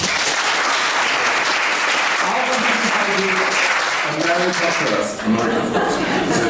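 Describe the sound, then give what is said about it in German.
Audience applause runs steadily through the whole stretch as a dense wash of clapping, with a few voices and chuckles rising over it in the second half. “Was meinen Sie, Nummer 1? Klatsche, ich kann nicht sehen. Nummer 2.”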